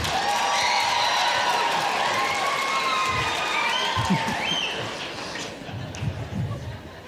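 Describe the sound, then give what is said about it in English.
A live comedy-show audience applauds and cheers with whoops and shouts. The loud, dense clapping holds for about five seconds, then thins and fades into scattered sounds. “Let me ask by round of applause, let's do it tonight.”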